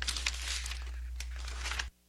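Brief crinkling rustle of letter paper being handled and opened, with a couple of sharper crackles, ending abruptly after about two seconds.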